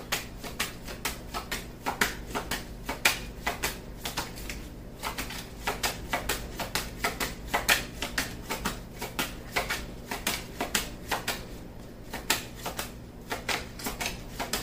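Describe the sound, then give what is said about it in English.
Tarot cards being shuffled and drawn from a deck, giving many rapid, crisp clicks and light snaps in an uneven but continuous patter, fairly soft, with no talking. “I'm going to take just one or two more cards and then we'll wrap up.”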